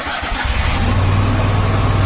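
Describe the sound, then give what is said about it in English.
A Kubota Commander zero-turn lawn mower engine starting and then running with a steady, low, throbbing rumble, alone with no talk. “That's the sound of the Commander, Kubota's top-selling zero-turn mower.”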